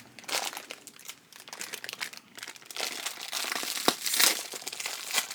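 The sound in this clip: Crinkling of a freshly opened fortune cookie wrapper, a steady stream of irregular crackles and crunches that grows louder in sharper bursts toward the end.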